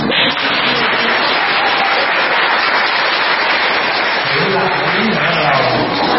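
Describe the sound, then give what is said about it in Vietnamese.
A gathered assembly claps loudly after hearing singing. The applause is a thick, continuous wash, and a voice rises over the clapping near the end. “Thôi mà nói sao mỗi lần mà nghe hát là vỗ tay lớn chứ có biểu vỗ từ nữa đâu.”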